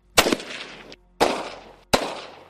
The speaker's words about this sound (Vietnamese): ở phía cuối đại điện chợt vang lên tiếng súng.